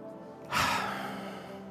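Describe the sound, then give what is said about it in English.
One deep breath: a sudden, airy rush of breath that swells quickly and then slowly fades into a soft, drawn-out exhale, heard alone without talk. “Take a deep breath”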